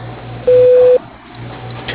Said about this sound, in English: Please leave a message after the beep and he'll return your call as soon as possible.